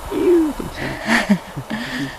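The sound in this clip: Calls of a black woodpecker: a few loud, clear tonal notes with short pauses between them, and no voices.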